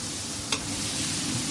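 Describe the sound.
Low, steady sizzling of food that was cooked separately, now finishing its cooking in a sauce mixture, with two brief scraping stir sounds over the quiet hiss.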